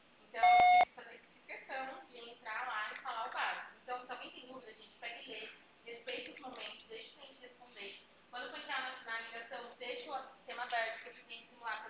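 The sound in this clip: A voicemail beep after a recorded greeting: a single short electronic tone, then a voice talking at length over a narrow, phone-like line.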